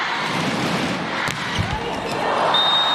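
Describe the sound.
During a volleyball match against Australia, a single sharp strike of Takahashi Ran's serve cuts through a steady roar of arena crowd noise, with a low thump following shortly after.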